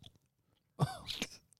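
Someone takes a big bite into a soft, sticky Caramello Koala chocolate. A single crunchy burst is followed by a moment of chewing, faint and otherwise quiet.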